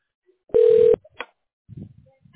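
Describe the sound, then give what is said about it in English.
A telephone number is dialed to a tax specialist: one loud, steady keypad beep, followed by a short click and a few faint, low rumbling sounds in near silence. “Okay, we're dialing the tax specialist.”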